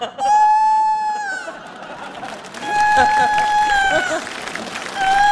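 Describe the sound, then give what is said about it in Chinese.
Rooster crowing in a domestic scene, with long, sustained high calls repeated a few times over a noisy background with crowd-like murmur. “这咋还打鸣呢？”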